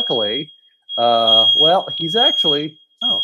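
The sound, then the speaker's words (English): A smoke detector alarm sounds as a steady, high-pitched electronic tone through almost the whole stretch, breaking off briefly near the end, beneath a person talking. “my smoke detector's going off just again. I hope I can ignore that.”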